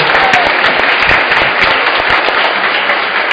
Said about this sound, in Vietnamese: chúng ta cùng vỗ tay chúc mừng nhau một mùa Giáng sinh an lành, tràn đầy hồng ân Thiên Chúa.